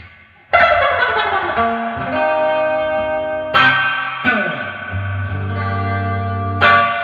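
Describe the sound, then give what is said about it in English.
Electric guitar played through a surf reverb pedal: a few strummed chords and single notes, each ringing out into a long, washy reverb tail rather than a sharp drip, heard alone at a steady moderate level. “It's not really drippy as much as it is. It's like the tail of the reverb.”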